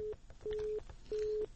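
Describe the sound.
Telephone busy tone after a caller's line was cut off: three steady, low electronic beeps separated by short gaps, the first one clipped at the start, over a faint hiss.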